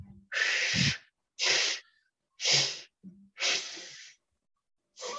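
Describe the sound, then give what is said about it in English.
Forceful exhalations during a breathing exercise that empties the lungs: a series of loud, hissing breath bursts of about a second each, separated by short silent pauses. “Basically, we're blowing out all the breath we possibly can.”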